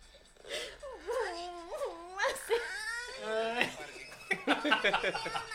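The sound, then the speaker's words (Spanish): A child cries in long, wavering high-pitched wails and whimpers with bending pitch, breaking into choppier, sobbing bursts toward the end. “ahora empieza a llorar, mira.”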